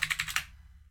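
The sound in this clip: Keyboard typing: a quick, fairly faint burst of several keystrokes in under half a second, then it stops, leaving only a low hum.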